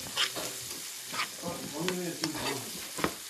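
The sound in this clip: Onions fry in a pan in a home kitchen. A steady crackling sizzle runs throughout, and a few sharper scraping clicks from stirring stand out above it.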